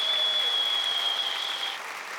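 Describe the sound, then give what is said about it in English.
A studio audience applauds a guest walking onstage at a talk show, with dense, lively clapping and a long, high whistle over it before the applause eases slightly. “Put our hands together for Cheryl Ladd for being with us today. Come on out, Cheryl.”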